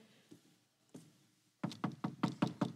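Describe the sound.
Knocking on a door: a few soft taps are followed by a quick, even series of firm, hollow knocks.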